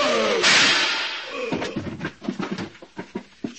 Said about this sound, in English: You just grazed me with a gun butt.